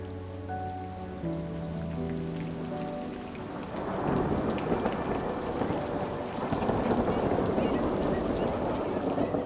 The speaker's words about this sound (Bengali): বৃষ্টি পড়ছিল বাইরে